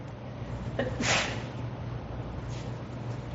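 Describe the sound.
A single brief sneeze breaks through during a religious lecture, a short, faint breathy burst over a low, steady hum.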